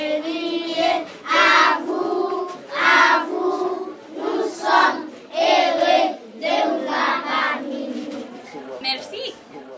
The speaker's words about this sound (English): I went to the school with Adam Davidson, and when we came in, when we met them, they sang us a welcome song.